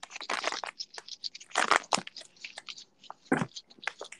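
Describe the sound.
Paper handled up close in an ASMR-style recording: crisp crinkling and rustling in irregular bursts, with several sharper, louder crackles among quieter rustles.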